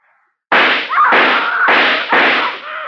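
Gunshots fired from a handgun into a wall: four loud, sharp blasts in quick succession, each with a long, ringing tail that spreads across the whole range before the next shot.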